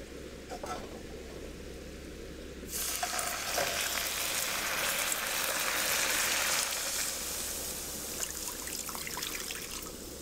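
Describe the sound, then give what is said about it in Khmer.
Water poured onto hot caramelizing sugar: after a quiet start, a sudden loud hiss of sizzling bursts in and keeps crackling steadily, easing slightly toward the end. “ដល់ពេលដែលស្ករចាប់ផ្ដើមឡើងឈ្ងុយការពារកុំឲ្យខ្លោចដូច្នេះគឺយើងត្រូវដាក់ទឹក”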